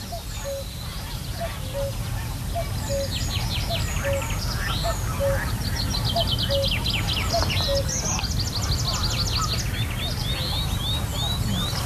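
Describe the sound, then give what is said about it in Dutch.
Canada geese honk over and over in a steady, repeating rhythm, mixed with many chirping and twittering songbird calls over a constant background hiss. “Nu vooral de ganzen, denk ik. Ja. Dus de Canadese gans, zei je, hè? Ja, die zitten hier ook, ja.”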